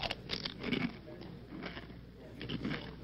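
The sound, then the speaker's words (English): Faint biting and chewing on a sugary candy bar, with soft crunching bursts scattered through a low, steady background hiss. “It's the newest candy bar on the market, and it's guaranteed to give you energy. So it's like an energy bar? Nope, there's almost no nutritional value. It's just loaded with sugar. Okay, whatever. Let me try it.”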